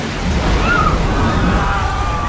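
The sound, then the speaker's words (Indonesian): Water gushes out in a steady, heavy roar as a stick is pulled from the ground, a broad rushing wash that stays constant throughout. “Bersamaan dengan dicabutnya lidi itu, air mengucur keluar,”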